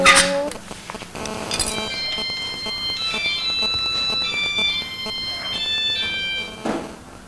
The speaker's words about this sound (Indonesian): Tante apa yang bunyi? Handphone sayang.